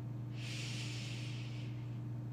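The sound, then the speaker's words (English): A deep breath in during a guided meditation makes one long, soft, airy inhale lasting over a second, over a low steady hum. “Now I want you to take in three big deep breaths.”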